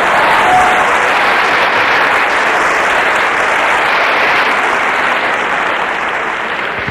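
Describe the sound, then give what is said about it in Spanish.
Audience applause at a gathering rolls on as a loud, sustained, dense roar of clapping and easing slightly only at the very end, with no voices standing out. “Un aplauso para ella, que es de Rosario.”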